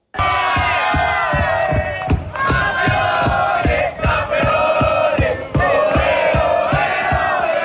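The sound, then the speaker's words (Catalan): Atlètic d'Escaldes footballers celebrate their Cup title after a 2-3 win over FC Santa Coloma, loudly singing a chant together over steady, evenly spaced rhythmic beats, with whoops and cheers mixed into the massed voices. “És el so de la celebració dels jugadors de l'Atlètic d'Escaldes, campions de la Copa,”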